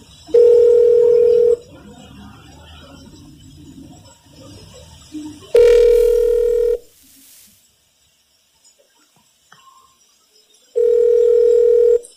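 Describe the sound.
Ringback tone on a call to a state health department hotline: three long, steady tones about four seconds apart. Faint background noise fills the first gap, and the second gap is nearly silent.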